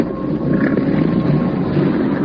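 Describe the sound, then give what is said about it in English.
Police motorboat engines drone in a steady, dense, low-pitched roar that holds at an even loudness. “I hear it. Must be police boats.”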